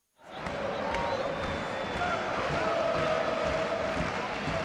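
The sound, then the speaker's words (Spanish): Crowd celebrating on the pitch at El Sardinero stadium after a Racing football match, a dense, continuous roar of many voices that starts abruptly and holds steady, with speech mixed into the hubbub. “Estamos casi en el centro del Sardinero, pisando el césped en medio de la celebración.”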